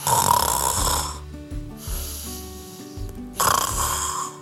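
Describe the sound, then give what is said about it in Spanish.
A storyteller's voice imitates the snoring of a cat asleep in a shoe, giving two loud, rasping snores separated by a softer, whistling breath. “Durmió y requete durmió. Roncó.”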